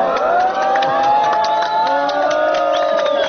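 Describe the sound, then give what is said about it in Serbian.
A crowd of refugees at the fence on the Serbia–Hungary border near Horgoš cheers, whoops and claps at soldiers reinforcing the metal fence with barbed wire. The shouts and clapping are loud and continuous, with a few raised voices above the din. “Aplauzom i ironičnim povicima "Bravo!" grupa izbjeglica je pozdravila mađarske vojnike koji su limenu ogradu postavljenu između Srbije i Mađarske dodatno ojačavali bodljikavom žicom.”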